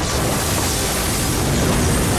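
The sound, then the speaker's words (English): Explosions tear through a space liner as it is destroyed: a loud, continuous roaring blast with dense rumbling noise and no separate distinct bangs, sustained at steady strength throughout. “numerous internal explosions start wrecking the whole space liner until it is finally destroyed in one huge big bang.”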